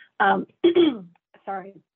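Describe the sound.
A speaker at a panel event on federal language access clears their throat in three short, rasping, voiced bursts within two seconds, separated by brief silences.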